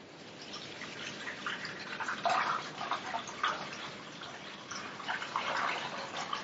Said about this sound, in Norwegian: Så henger jeg posen opp på stativet. Så heller jeg saltvannet oppi.